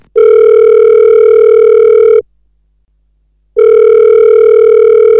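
An electronic telephone ring signals an incoming call: a loud, steady, buzzy tone holds for about two seconds, stops for over a second, then starts again at the same pitch.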